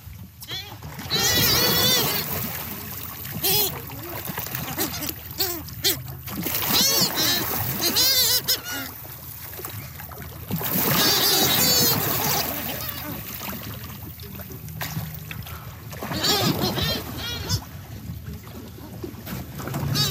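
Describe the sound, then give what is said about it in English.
Great shearwaters calling at sea: harsh, noisy cries come in several bursts over splashing water and boat noise. “it is the sound of the great shearwaters. This it for me, it's like every time, it's like for some people to hear Christmas music.”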